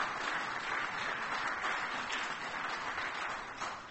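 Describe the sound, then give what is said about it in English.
Audience applause fills the room for the main teachers, a steady, faint wash of many hands clapping that holds evenly for a few seconds and then tapers slightly. “I just want them to have a round of applause right now”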